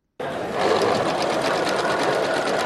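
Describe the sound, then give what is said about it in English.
A sewing machine stitches headscarves at a community center in Christchurch, New Zealand, with a steady, even whir that starts suddenly and keeps running without pause. “Volunteers come together Sunday, sewing headscarves at a community center in Christchurch, New Zealand.”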